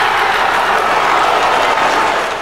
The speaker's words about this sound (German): Grenzenloser Jubel bei der brasilianischen Delegation in Kopenhagen, grenzenloser Jubel in der brasilianischen Metropole am Zuckerhut.